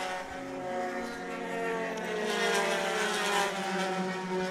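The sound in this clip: Race car engines at a Willow Springs club road race pass the finish line, a steady layered whine of harmonic engine tones with slight pitch shifts and no voices.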